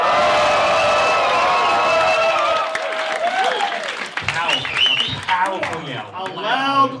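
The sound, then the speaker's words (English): Loud cheering and applause from a live audience at a recorded show in Bristol, a dense roar for the first few seconds that drops away as a voice begins talking over the fading crowd. “A loud audience.”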